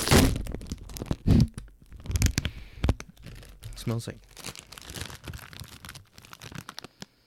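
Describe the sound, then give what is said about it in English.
A bag of tangy chili fusion chips being torn open and eaten, with crinkling, sharp tearing and a few crunchy bites among people talking. “You going to test it out live on air? Tangy chili fusion. But the eye is being replaced with the chip. Live taste test. Make sure you get that sweet ASMR.”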